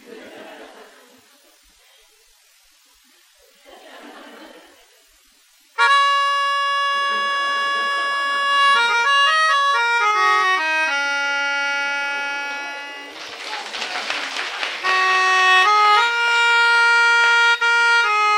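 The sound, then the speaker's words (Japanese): A melodica (pianica) plays loud, sustained reedy notes and chords that shift in pitch step by step for about twelve seconds, entering abruptly after a few seconds of soft voices and light laughter. “ですから今日もね、私はそのピアニストの提言に従いまして、頭を使って、このピアニカを弾いていただきたいと思います。”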